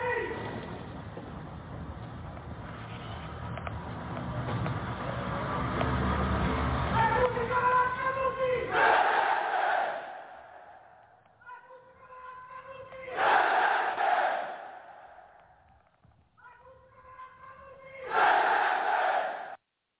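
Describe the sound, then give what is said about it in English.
A large crowd at a Nazi rally in Rome, Italy roars loudly, then breaks into three rhythmic shouted chants that swell and fade, with quieter murmuring between them. “And this is a massive Nazi rally. Let's take a listen in.”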